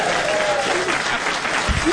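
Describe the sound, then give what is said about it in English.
Audience applause at a live trivia game show that has just ended in a tie, dense, steady clapping that fills the full two seconds. “You can, let's give a nice hand. It's our first tie.”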